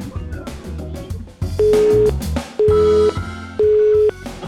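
A phone line busy tone after a dropped call: three steady, mid-pitched beeps, each about half a second with short gaps, over a busy music bed.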